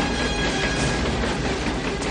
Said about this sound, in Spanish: La cuerda se tensa y pasa por encima del tren en marcha.